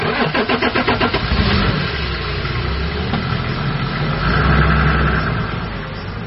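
A police car engine cranks with a rapid pulsing stutter, catches and settles into a steady idle. It then swells louder as the car revs and drives off before easing back down.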